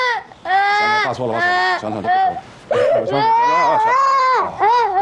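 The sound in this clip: A child cries and sobs in loud, wavering wails that break into several long bursts with short catches of breath between them.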